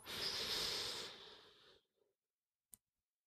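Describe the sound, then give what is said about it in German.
A deep inhalation through the nose into the belly during a guided breathing exercise, a long airy hiss that swells quickly and fades over nearly two seconds, followed by a soft brief sound and one faint click. “Dann halte ganz kurz inne und dann atme wieder tief durch die Nase ein in den Bauch.”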